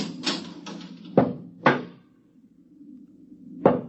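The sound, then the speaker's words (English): A lock is worked open on a door, giving a few sharp metallic clicks and clunks with quieter scraping between them and a longer pause before the final click. “I think they're opening the lock.”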